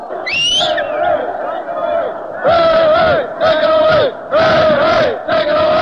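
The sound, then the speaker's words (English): A largely student crowd cheers loudly at a basketball game in Madison Square Garden, New York City. A roaring yell is followed by rhythmic bursts of massed chanting voices, separated by brief dips. “Here is a basketball game in New York City at Madison Square Garden. As you can hear, the crowd is composed largely of students.”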